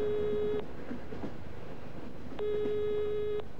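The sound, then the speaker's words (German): Train ride heading north: a low, steady rumble of a moving train runs throughout, with two long, level electronic tones sounding over it, one at the start and another near the end. “Also wieder Bahnfahrt. Weiter rauf nach Norden.”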